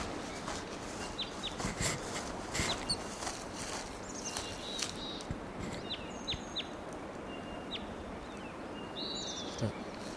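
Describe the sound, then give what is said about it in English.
Faint, brief chirps from a wild bird perched atop a tall tree: a few short, high calls scattered over steady, hissing background noise. “Approaching that wild bird. He's perched up on the top of a tall tree.”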